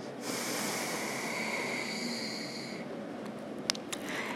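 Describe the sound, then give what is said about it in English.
A long, steady airy hiss of breath out through the left nostril during alternate nostril breathing lasts over two seconds and then fades, leaving faint background noise with a couple of small clicks. “Exhale, release through the left nostril.”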